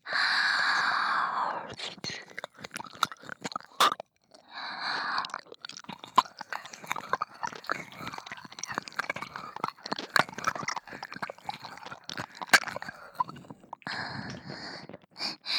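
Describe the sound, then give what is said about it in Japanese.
Wet ear-licking mouth sounds: many soft smacks, clicks and slurps in an uneven rhythm, with breathy whispering at the start and near the end. “それではこっちの耳舐めさせていただきますね。”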